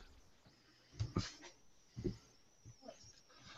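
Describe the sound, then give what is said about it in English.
A dog makes a few short, breathy whimpering or snuffling noises, faint and spaced apart, with quiet stretches in between. “Okay, sorry about my dog.”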